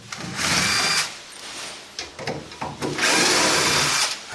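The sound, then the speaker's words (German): A cordless screwdriver drives screws in and out of a shelf unit, whirring in a few loud, buzzing bursts with short quieter gaps, the longest burst at the end. “der Akkuschrauber unter anderem, damit du die Schrauben rein und raus kriegst”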